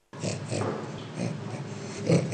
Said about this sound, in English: Why don't we play the orangutan? Here's the orangutan.